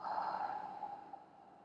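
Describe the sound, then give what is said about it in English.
A soft, long, breathy exhale during a guided breathing exercise. The airy rush lasts under two seconds and slowly fades, with nothing else heard. “Natural inhale, bring it in. Easy exhale, let it go.”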